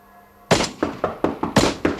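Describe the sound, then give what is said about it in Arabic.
Distant, muffled artillery fire: seven dull booming thuds in an uneven series, each striking sharply and fading quickly, with no voices. “على البعد تترامى أصوات طلقات مدفعية مكتومة.”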